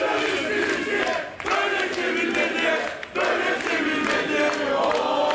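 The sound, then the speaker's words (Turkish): Football fans chant loudly at Istanbul Airport as departing Fenerbahçe head coach Tedesco leaves for Germany. Their rhythmic, massed voices roar continuously, with two brief dips in the middle. “Bu sabah İstanbul Havalimanı'ndan Almanya'ya giden Tedesco'yu taraftarlar çiçekler ve tezahüratlarla uğurladı.”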